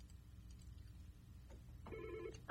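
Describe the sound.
A telephone rings for an incoming caller to a radio phone-in: one short electronic ring burst with bright tonal bands rises near the end out of a faint low hum, followed by a sharp onset at the very end.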